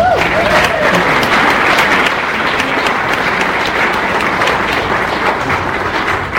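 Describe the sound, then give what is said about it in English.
An audience bursts into applause to welcome a guest speaker who has just been introduced on stage at a museum talk. Loud, dense clapping continues steadily throughout and tapers slightly at the end. “Thank you very much for the warm welcome.”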